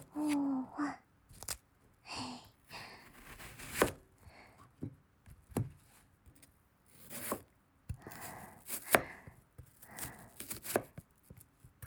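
A knife chops onions on a board, four onions in all, with many crisp, irregular strikes mixed with softer scraping and rustling between the cuts.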